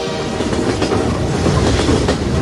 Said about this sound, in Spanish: ¿Lo sentís al tren? ¿No lo sentís?